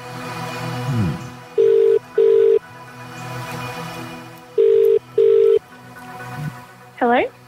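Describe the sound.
A phone call being placed: a telephone ringback tone plays two double-ring bursts, a steady mid-pitched tone pulsed twice, a pause, then twice again, with voices heard before the first burst and a voice answering right after.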